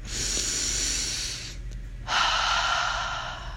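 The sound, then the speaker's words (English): Deep breathing in and out: two long, loud, airy breaths with a steady hiss-like rush, separated by a short pause, with no talk. “I'm giving you some extra time to breathe right now, so take a big inhale in. And out. One more.”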